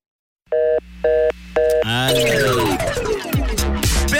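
Telephone ringing on an outgoing call: three short, evenly spaced electronic tone bursts, followed by a louder, continuous sliding tonal sound.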